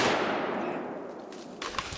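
A hunting rifle fires at a bear treed in the woods. A loud, broad roar starts at once and rumbles on for about two seconds, slowly fading and losing its brightness.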